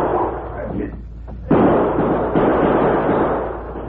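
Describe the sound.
Gunshots as two crooks fire their guns while running toward an open barn door; sharp, loud bursts stand out from a dense, hissy background.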